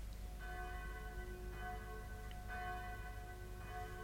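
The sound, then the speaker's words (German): A town hall bell rung by pulling its rope tolls four times at a slow, steady pace, each faint stroke ringing on and overlapping the next over a low background hum. “Wer anders zieht am Strang der Rathausglocke als der alte blinde Kapitän Kett? Einer nach dem anderen werden die Schläfer aus dem Schlaf geläutet”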